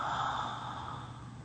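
A single soft breath drawn in and let out, a steady airy hiss that slowly fades, quiet and alone.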